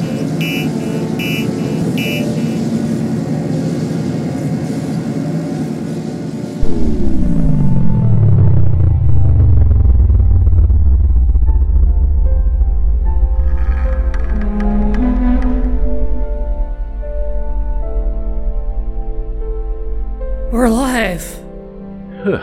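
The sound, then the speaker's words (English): Spaceship landing in a video game, its hull glowing hot and throwing sparks: a steady hum gives way to a sudden, loud, deep rumbling roar with a falling whine, which holds for many seconds before easing off. “I mean, we might be about to die, but there's nothing I can do about it. The ship is landing itself. Let's hope it knows what it's doing.”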